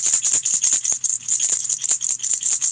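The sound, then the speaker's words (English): A shaman's rattle is shaken in a fast, steady rhythm, producing many bright, hissing swishes of seeds or beads striking its shell, one after another with no pause. “All right, so this is the sound of the rattle.”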